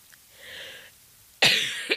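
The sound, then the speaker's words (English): A person coughs: a harsh, loud burst followed quickly by a shorter second hack, preceded by a soft, breathy rasp. “Sorry, I'm coughing.”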